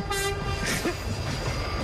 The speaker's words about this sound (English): That's the sound of the horn.